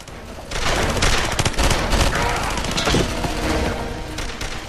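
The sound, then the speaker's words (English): Dense gunfire fills a film battle scene, with rapid overlapping shots and bursts packed into a continuous loud barrage that barely lets up. “Russians fall under the precision fire of Doyle and his men.”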